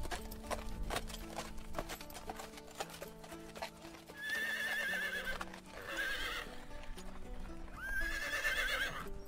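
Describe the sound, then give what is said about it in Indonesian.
A horse ridden by an arriving rider whinnies loudly three times over a steady patter of clip-clopping hooves. “Tak disangka, pangeran berkuda dari kerajaan seberang datang dan menghampiri sang Kuning.”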